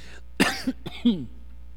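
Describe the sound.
A lingering cough from an adult, heard as a few short, harsh bursts spread over about a second, with no talk around them.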